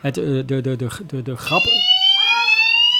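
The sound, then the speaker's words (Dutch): A fire alarm goes off in a city council chamber: a steady, piercing electronic tone with layered high harmonics cuts in halfway through and holds unbroken to the end, after a short stretch of people talking. “de grap is dat er nu een brandalarm afgaat. En nu is hij weer stil.”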